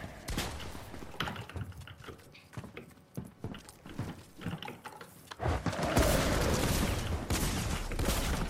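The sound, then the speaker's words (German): A pump shotgun firing rapidly in a 2 vs 1 video game match on The Pit: many quick, sharp shots with mechanical clatter, building into a dense, continuous roar in the final seconds. “diese Pump schießt so schnell”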